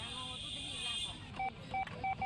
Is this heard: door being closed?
no